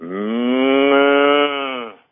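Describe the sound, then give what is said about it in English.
A single long, loud moo from a farm cow, rich and resonant, holding a steady low pitch for about two seconds before cutting off, heard alone. “I think cows are beautiful to begin with, and you would hear that sound.”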